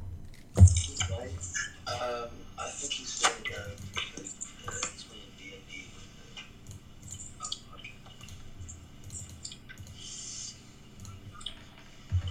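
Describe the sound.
Dice rattle as an on-screen dice app rolls them, a short burst of sharp clicking taps followed by scattered lighter clicks spread over several seconds.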